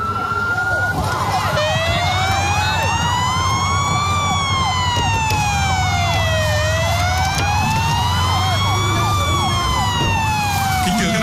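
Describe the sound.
Fire engine sirens wail as the trucks arrive at an accident scene. The sirens are loud and continuous, sweeping slowly up and down in pitch over a low rumble of engines and traffic.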